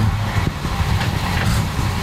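Low, steady engine rumble from a 1960s Mercedes 230S (W111) classic car without a catalytic converter, a broad droning roar with no voices over it.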